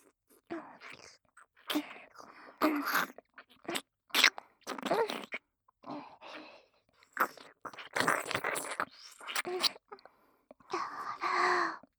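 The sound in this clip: Wet mouth sounds of an ear being licked: many short, irregular bursts of slurping, smacking and breathy noise separated by brief silences, varying from soft to fairly loud.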